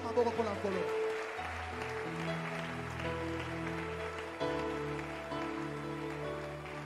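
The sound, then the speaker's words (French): Church audience applauding for the Lord: dense clapping over sustained musical tones, the sound staying even and full throughout. “Acclame d'abord pour le Seigneur.”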